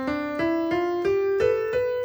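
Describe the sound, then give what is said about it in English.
Six piano notes climb the C major scale in an even, unhurried rhythm. Each note is cleanly struck and overlaps slightly with the next as the pitch steps upward. “that means that we're playing in the C major scale, so, which sounds like this.”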